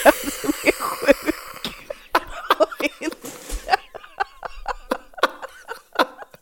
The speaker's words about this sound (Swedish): medan du hostar här